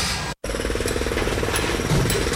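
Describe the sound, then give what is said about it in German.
Rapid, loud jackhammer pounding at a construction site where the electricity grid is being expanded. The hammering runs as a continuous, dense rattle, with one brief cut-out near the start and no voices. “Papa, warum ist hier eine Baustelle?”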